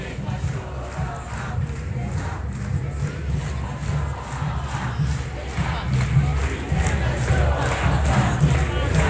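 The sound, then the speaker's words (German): A crowd chanting a slogan at a street demonstration in Geneva, a dense, steady roar of many voices with a rhythmic pulse running through it, growing slightly louder toward the end. “Im Hintergrund hört ihr eine Parole.”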